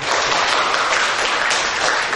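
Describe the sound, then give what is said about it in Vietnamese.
Applause from an audience at a retreat: a dense, even patter of many hands clapping, steady and loud throughout, with no voices. “Đồng ý xin cho một tràng pháo tay.”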